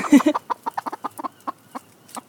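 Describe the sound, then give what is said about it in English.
Chickens cluck in a small fenced garden enclosure beside apple trees and compost bays, giving many short, irregular clucks of moderate loudness with no talk. “we come to the area which has a little fence, and there are four apple trees, the compost bays, and that's where the chickens are meant to live when they haven't broken free.”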